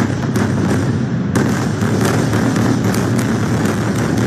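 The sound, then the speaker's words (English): Airstrike explosions shake the southern suburbs of Beirut: many sharp booms and cracks over a constant, heavy rumbling roar. “Massive blasts rocking the southern suburbs in Beirut.”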